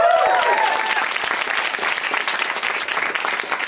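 Crowd applause for the producer, a dense, steady burst of clapping that stays loud and even for the whole stretch.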